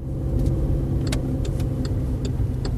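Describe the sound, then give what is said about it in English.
Car driving around a housing project on the edge of Dewsbury, England: a steady low engine rumble throughout, with a few faint ticking clicks above it. “The Reverend Kathy Robertson is driving me around the housing project where the Matthews family lived.”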